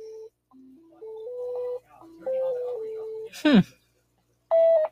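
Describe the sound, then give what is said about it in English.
Electronic telephone-line tones while a call is transferred to an extension: a short series of stepped beeping tones at shifting pitches, then a quick sweeping chirp, and finally a louder sustained tone after a brief pause. “Calling that extension, please wait.”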